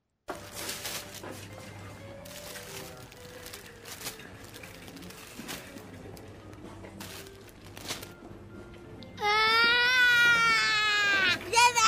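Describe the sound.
A child wails loudly in a temper tantrum, bursting in near the end after a long stretch of quieter background noise with voices talking.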